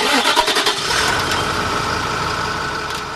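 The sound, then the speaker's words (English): A diesel bus engine starts with an ignition key: a quick burst of cranking pulses catches into a steady, loud, mid-pitched idling rumble that continues to the end. “it's a diesel engine responding.”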